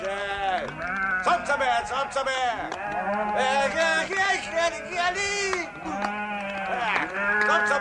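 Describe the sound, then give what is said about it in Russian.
A flock of twenty rams bleats as they are driven into a yard, with loud, wavering, overlapping bleats running almost without pause from start to finish. “Балбес загоняет во двор дяди Нины 20 баранов.”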